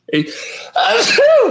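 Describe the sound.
One loud sneeze: a breathy, rising intake of air followed by a sharp, voiced burst that trails off in a wavering tone.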